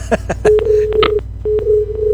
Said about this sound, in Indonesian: teleponnya tadi sempat terputus mungkin jaringan